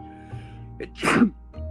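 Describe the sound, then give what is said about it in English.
A single sneeze, a short explosive burst over a low steady hum. “bless you. Thank you.”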